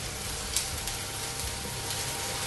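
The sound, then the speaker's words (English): Soft, steady sizzling of ginger garlic paste frying with onions and cumin seeds in a pan while being stirred, a faint, even crackle with no talk. “I'm going to add in a spoonful of ginger garlic paste. And remember to keep stirring.”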